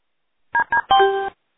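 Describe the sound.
Telephone keypad tones dial back into a conference call: three clear electronic beeps, two short ones followed by a longer held tone, heard alone without any talk.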